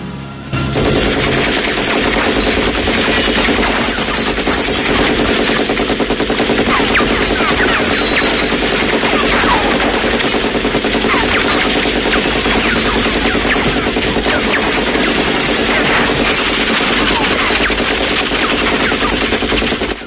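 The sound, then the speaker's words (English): Sustained machine-gun fire as a film's hero empties his weapon into computers and screens in a communications headquarters: a loud, unbroken stream of rapid shots lasting about twenty seconds. “He unloads the ammo into the computers and screens.”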